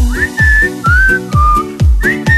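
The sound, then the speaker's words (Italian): Whistling of a tune: loud held notes with gliding pitch, forming a short melody of several tones, with no talk. “Che poi è difficile essere intonati col fischio.”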